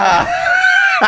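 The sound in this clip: A voice imitates a singer's scream from a song: a single loud, sustained, tonal "ah" held for about a second, then cut off abruptly.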